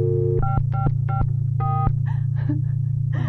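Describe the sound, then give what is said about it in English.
Telephone keypad tones as an old number is dialed. Four short two-tone beeps sound in quick succession over a steady low hum. “The old number. I'm dialing the old number.”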